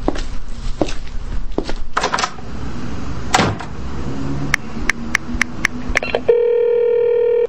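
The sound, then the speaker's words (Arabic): A phone dialing a call: a quick run of several short key tones, then a steady sustained electronic tone with layered harmonics. Before them come a few seconds of mixed background noise and thumps. “ثواني بس، ثواني هعمل تليفون.”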